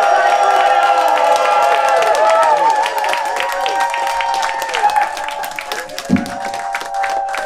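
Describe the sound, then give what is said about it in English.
Cheering and applause from a convention crowd at a San Diego Comic-Con 2023 panel, a loud, sustained roar of clapping mixed with whoops and shouting voices. “All right, guys, make some noise again for Kevin Smith and Mark Bernard, and it's Batman Beyond!”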